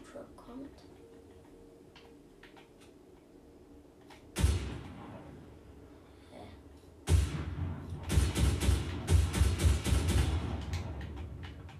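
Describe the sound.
Gunfire in the video game Fortnite: a sharp shot, a second loud burst, then a dense run of rapid, punchy shots fading in and out over a low background rumble.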